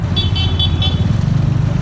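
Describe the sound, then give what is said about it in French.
Car horns toot a few quick, short beeps at a yellow-vest protest on a Sunday, over a loud, low engine rumble and road noise. “Un petit concert de klaxon?”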